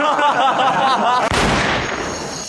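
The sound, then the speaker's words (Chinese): A Browning pistol goes off by accident: one sharp, loud gunshot bursts out right after a stretch of talk, then a noisy ringing tail fades away. “哎呀，爹，这么好的枪还能走火啊？ 我没开啊。”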